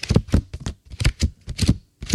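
A bicycle spoke card shaken in the air, making rapid papery flapping and clattering in quick bursts separated by short pauses.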